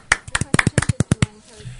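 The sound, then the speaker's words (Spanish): Quick burst of hand clapping for a contest prize winner, a rapid run of sharp claps lasting about a second before it fades out. “Un aplauso para él. Un aplauso.”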